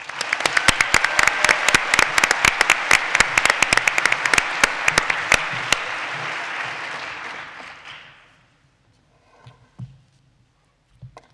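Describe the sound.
Audience applause welcoming a university speaker to a debate: loud, dense clapping with sharp individual claps standing out, holding for several seconds, then fading to quiet with only faint scattered sounds after.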